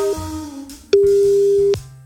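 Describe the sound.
A telephone call tone sounds as someone is phoned: one loud, steady, mid-pitched beep lasting under a second, with quieter tones before and after it.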